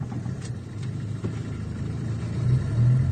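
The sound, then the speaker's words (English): A car driving out to a school, a steady low engine rumble that holds evenly and grows slightly louder toward the end. “We drive out with her to a school where they provide help and support to people who are now living”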